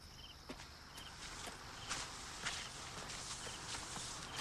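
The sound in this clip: Footsteps walking back through a park at night, a faint, steady run of regular steps under a constant background hiss, with no voices.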